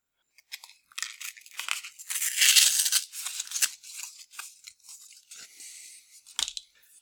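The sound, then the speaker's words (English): A scratch card is torn in two, giving crackly, papery ripping bursts. The ripping swells loudest near the middle, then comes in short, scattered crinkles, ending with one sharp snap. “You must tear the scratch card directly in two.”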